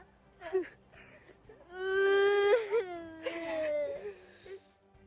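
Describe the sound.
A baby cries: a short whimper opens, then swells into a long, loud, high-pitched wail with sustained tone, easing into quieter broken sobs and moans.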